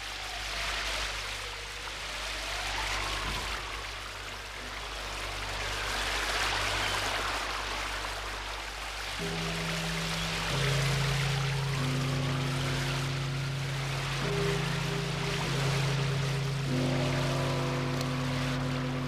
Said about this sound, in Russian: Я сижу в машине и сквозь ветровое стекло всматриваюсь в дождливую ночь.